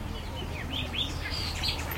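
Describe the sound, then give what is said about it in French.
Birds sing in an orchard, giving many short, high chirps and tweets. They are fairly faint over a steady low background rumble. “Au milieu de ce beau verger, les oiseaux sont nombreux, heureux et le font savoir, car ils trouvent de quoi se nourrir en quantité eux aussi.”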